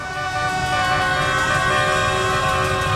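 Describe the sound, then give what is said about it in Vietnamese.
Vehicle horns and siren-like tones blare in a dense, continuous mix as vehicle convoys parade in a street celebration after Vietnam's football win, on streets such as Tràng Tiền and Bà Triệu, loud and unbroken throughout. “Càng về khuya, dòng người đổ ra đường thì càng đông. Những đoàn xe nối tiếp nhau diễu hành, sắc đỏ phủ kín các tuyến phố như là Tràng Tiền, Bà Triệu, Hai Bà Trưng, Đại Cồ Việt hay là Nguyễn Trãi.”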